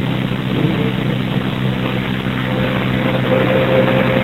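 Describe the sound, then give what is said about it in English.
Steady, loud low rumble of a commercial garbage truck's heavy engine, holding an even level throughout with a faint thin whine appearing in the second half; no voices. “It's a garbage truck. Environmental company. I guess they do commercial trash.”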